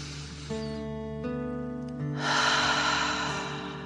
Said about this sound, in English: Fill up your chest and belly deep dragon breath in and out.